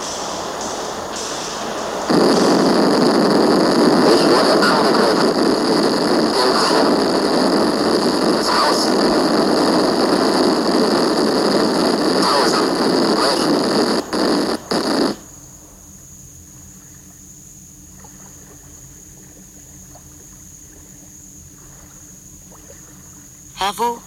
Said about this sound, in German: starke Meeresbewegungen, hohe, schaumige Wellen. Die Algen fliegen wie in einem Sturm. Das Boot wird abgetrieben.